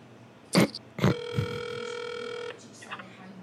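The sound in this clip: A telephone tone sounds during a prank call: a couple of sharp knocks, then a single steady electronic tone lasting over a second before it cuts off, with faint noise afterward.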